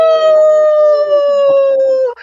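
People imitate a wolf howl in one loud, sustained howl lasting about two seconds. Its pitch stays fairly level and then drops away at the end.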